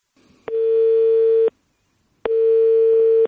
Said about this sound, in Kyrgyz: Татьяна'нын сөзүн угалы, биз ага телефон чалдык.